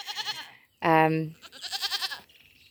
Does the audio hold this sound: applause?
no